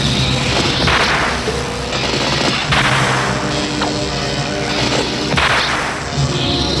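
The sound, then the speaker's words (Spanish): Sharp whip cracks from a crimson red whip striking a man's back, a few loud lashes breaking through a dense, continuous wall of loud sound. “Evil-Lyn sonríe mientras el mercenario agita un látigo rojo carmesí azotando la espalda del héroe”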